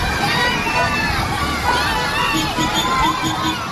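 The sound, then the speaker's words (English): A crowd of hundreds of children shouting and cheering on a beach in Troon during a charity outing run by taxi drivers, a dense, continuous babble of excited young voices. “Hundreds of kids are enjoying a day on the beach thanks to taxi drivers giving up their time.”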